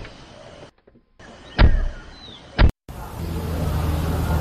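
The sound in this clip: People getting into a car: two loud, dull thuds of doors shutting about a second apart, separated by brief quiet, then a low steady rumble of the car interior that continues to the end.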